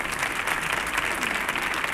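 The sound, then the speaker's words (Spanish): A concert audience applauds a guitarist returning to the stage: brief, dense, steady clapping from a crowd throughout. “Otro aplauso para el guitarrista también, por favor, Alejandro Suárez”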